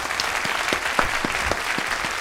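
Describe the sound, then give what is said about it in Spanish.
Applause for a studio guest, a motorcycle company manager: steady, moderately loud clapping from a small group, with individual claps picked out against a continuous patter. “Un aplauso para Fernando Martínez Molto, gerente de Dos Rodes.”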